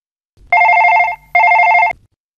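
A telephone rings with two loud, trilling bursts of warbling tone separated by a short pause. The ringing is heard alone, without voices, as a call goes out to a teacher.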